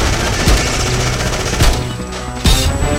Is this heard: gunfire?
yes